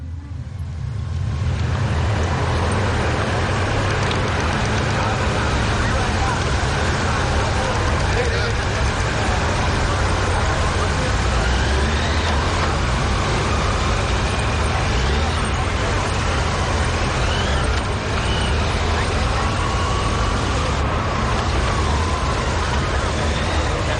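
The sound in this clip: A police motorcycle escort of Vietnamese traffic police and guard forces rides in a fan-shaped formation beside a convoy. A loud, dense roar of engines and road noise holds steady from start to finish.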